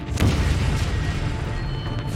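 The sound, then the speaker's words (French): A devastating explosion of an enemy tank on a battlefield: a deep, loud boom that hits hard at the start and rolls on as a heavy, sustained low rumble to the end. “Une explosion dévastatrice secoue le sol.”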